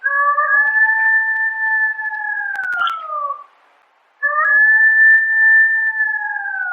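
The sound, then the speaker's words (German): Golden jackal howling: two long, steady tonal howls with layered voices, each holding a level pitch and sagging slightly at the end, separated by a short silence, loud and alone. “Und so hört sich das Heulen eines Goldschakals an.”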